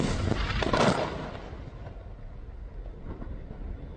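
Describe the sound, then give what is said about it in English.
An Israeli airstrike hits a building in Tyre, Lebanon. A heavy blast peaks early, then fades into a long, low rumble. “Well, that was the sound of an Israeli strike on a building in one of the largest cities in the country, Tyre.”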